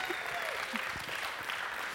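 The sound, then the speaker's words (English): Audience applause at a weekly prayer gathering, honouring a woman who shared a healing story. Steady, dense clapping holds at an even, fairly soft level for the whole stretch, with no clear voices on top. “Can you give her another round of applause?”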